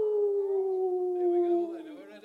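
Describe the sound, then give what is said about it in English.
A person imitates a werewolf howl: one long sustained vocal howl whose pitch slowly drifts downward before it breaks off and fades near the end. “Rising from the film American Werewolf in London. So if you can howl, do it.”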